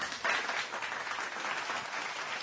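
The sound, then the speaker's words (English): Applause during a sports radio show: a steady, fairly faint round of clapping that swells briefly near the start and then continues evenly to the end. “Yes, yes, round of applause for the Eagle Sports Zone”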